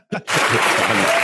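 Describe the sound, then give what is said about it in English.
Audience clapping at a live comedy taping, a dense, steady wash of applause that starts abruptly after a short sound and holds at full level to the end. “I don't know why the audience claps for that.”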